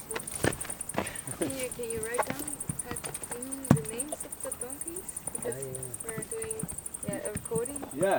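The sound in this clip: Donkeys' hooves clop in an irregular series of sharp knocks, with people talking over them.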